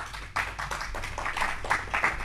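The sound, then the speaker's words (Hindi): An audience claps to welcome a poet onto the stage, with irregular bursts of hand claps continuing steadily and fairly softly throughout. “करतल ध्वनि से स्वागत करेंगे”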